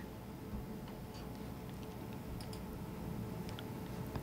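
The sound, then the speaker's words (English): Faint clicking repeats many times at an irregular pace. The light, dry ticks sit over a steady background hiss. “I'm just clicking. Clicking, clicking, nothing's happening.”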